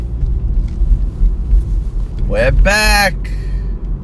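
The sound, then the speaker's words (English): Car engine and road rumble while driving back to work, a steady low drone running throughout, with a brief higher tonal sound rising out of it partway through. “I'm driving back to work.”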